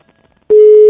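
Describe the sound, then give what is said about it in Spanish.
A telephone line tone sounds while a call is dialed: after a brief quiet stretch, a loud, steady single-pitch tone holds for about half a second. “le estamos marcando a la tía Margarita”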